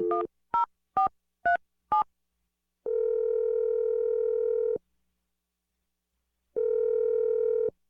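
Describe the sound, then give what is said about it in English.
Five short, quick telephone keypad tones sound as a number is dialed, followed by two long, steady, flat tones separated by a silent pause, all clean and isolated with no voices. “I'm dialing number now.”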